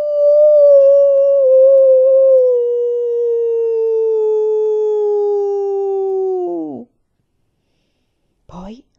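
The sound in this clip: A voice imitates wolves howling at the moon: one long, steady howl held for about six seconds that sinks gradually lower before breaking off, followed after a pause by a short second cry.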